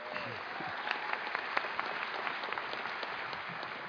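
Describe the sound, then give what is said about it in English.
Applause from an audience greeting the mayor of Gulfport as he speaks, a steady, dense patter of many clapping hands at moderate volume, continuing evenly to the end. “don't count that applause time against my minute, okay?”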